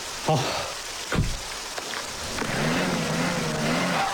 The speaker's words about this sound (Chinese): 哎呦我的天，又陷进去，这下怎么了？ 哎，我忘了提醒你了，春天这到处都是高山融水，车辆进去特别容易打滑，我下去推车你再试试。